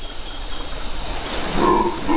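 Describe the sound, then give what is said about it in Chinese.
Howler monkeys roaring, a hoarse, rough, breathy drone heard as one continuous rumbling roar that swells slightly louder toward the end. “咆哮声来自另一种猴子，吼猴。他们嘶哑的叫声能传到5公里之外”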